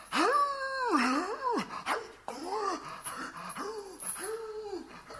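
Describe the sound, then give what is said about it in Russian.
A werewolf cries out in an audio drama: a long, wavering, howl-like cry is followed by several shorter moaning howls that rise and fall in pitch, loud at first and then somewhat softer. “Но в это время до наших ушей долетел странный шум. Он нарастал с каждой секунды.”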